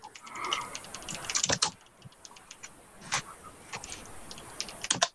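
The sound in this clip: Typing on a computer keyboard: a run of soft, quick key clicks with a few louder, sharper strokes standing out among them.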